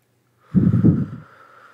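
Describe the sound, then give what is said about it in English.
A group of people at a prayer gathering taking one deep breath together, a single soft, breathy rush of air that swells quickly and then fades out, with no talk. “Let's all take one deep breath together.”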